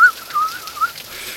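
A man whistling while standing out in the rain, a thin, high tone that wavers and warbles through a few short phrases, fairly faint and heard on its own.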